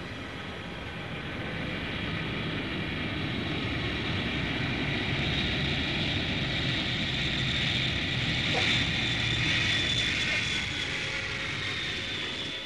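An airplane flies past with a steady, broad engine drone and airy rush that swells slightly midway and holds, continuous and even throughout.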